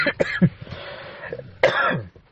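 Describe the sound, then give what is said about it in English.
A few coughs from a tickly throat, short sharp bursts bunched together early on, then a longer rasping one, with no speech around them. “I beg your pardon, I've got a bit of a tickle in my throat.”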